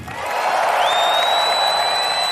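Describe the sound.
An audience at a live trick show applauds while voting between two contestants. Dense, steady clapping builds quickly and holds, and a thin high tone slides in partway through and stays.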